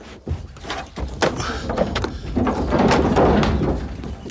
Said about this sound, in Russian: Заходит сам, закрывает двери сарая.